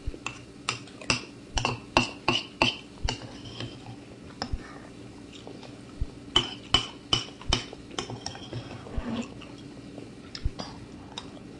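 A metal grapefruit spoon clinks, making many sharp, bright ticks in quick irregular clusters. The ticks are fairly faint and are separated by brief lulls.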